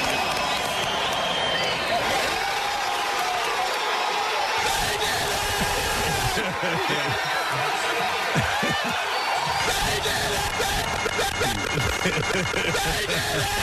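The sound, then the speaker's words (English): Crowd at a sports event roars in a continuous, noisy swell beneath people talking over it, the din staying loud and dense from start to finish. “At the moment, you'll hear the crowd surge.”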